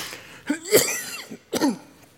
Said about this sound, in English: Isn't that convenient? God lets me cough at point changes, all right?